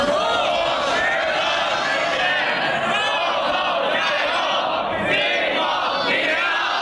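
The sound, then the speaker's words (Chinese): Students shout together in unison on a school sports field at night, cheering on older students before their exams. The massed chanting voices form a loud, continuous roar that holds steady for about seven seconds. “夜色中挥舞的荧光棒，操场上学弟学妹的齐声呐喊助威，也让教学楼上的高三学生倾巢而出。”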